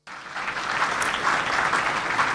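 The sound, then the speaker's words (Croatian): Audience applause at the opening ceremony of a business trade fair starts abruptly and holds as a steady, dense wash of clapping for a couple of seconds. “zamolit ću vas u to ime za još jedan veliki aplauz.”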